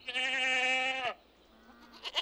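A baby goat bleats in a goat pen: one long, loud, nasal cry with a wavering quality, followed by quieter rustling and faint stirrings.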